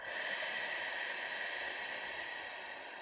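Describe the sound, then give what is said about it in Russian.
A long exhale through the mouth during a breathing exercise makes a soft, airy hiss that holds steady throughout and eases slightly toward the end. “Пауза. Вдох носом. Пауза и выдох ртом.”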